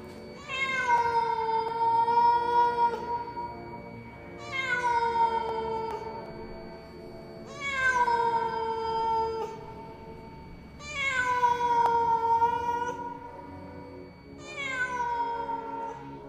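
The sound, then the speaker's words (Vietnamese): A cat meows mournfully at night with five long, drawn-out wails spaced a few seconds apart. Each cry is fairly faint and falls slightly in pitch toward its end. “Từ đâu đây vọng lên một tiếng mèo kêu, nghe thảm thiết trong đêm tối.”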